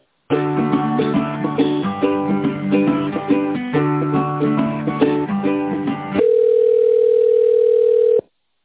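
Telephone audio during a call transfer: melodic hold music plays for about six seconds, then gives way to a single steady, mid-pitched tone that holds for roughly two seconds before cutting off.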